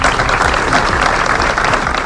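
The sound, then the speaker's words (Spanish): Applause breaks a minute of silence at a midday solidarity gathering in front of a town hall for affected families and neighbours: dense, steady clapping from a crowd, loud and continuous throughout, with no voices above it. “Guardaban un minuto de silencio roto solo al final por aplausos.”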